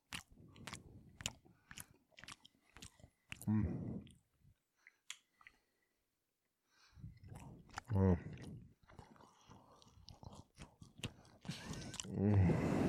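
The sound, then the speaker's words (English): Crunchy chewing of a chocolate-sprinkle breakfast snack, many quiet, crisp clicks and bites in irregular rhythm, with occasional talk between them. “That's why we're amping it up a little bit. This is just how I chew.”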